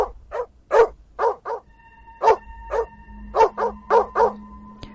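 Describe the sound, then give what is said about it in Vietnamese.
A black dog chained near a gate barks furiously: many sharp, loud barks in an uneven, insistent rhythm, some coming in quick pairs, with no talk over them. “con chó mực xích ở gần cổng cũng đã bắt đầu hướng về phía thân hình mặc đồ trắng đó, điên cuồng mà cất lên tiếng sủa.”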